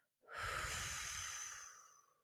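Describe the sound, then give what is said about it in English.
One slow breath in a breathing exercise of nasal inhaling and pursed-lip exhaling: a soft, airy hiss that holds steady for about two seconds, then fades. “You're going to slowly inhale through your nose, feeling your stomach press into your hand, keeping your hand on your chest as still as possible, and then exhale using pursed lips as you tighten your abdominal muscles”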